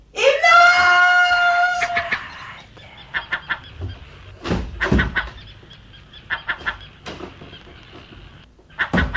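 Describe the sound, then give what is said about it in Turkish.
Crows caw as a radio drama sound effect, opening with a long, harsh, drawn-out call, then many short, rasping caws in irregular bursts. “kargaların sana nasıl ihtar ettiklerini işitiyorsun.”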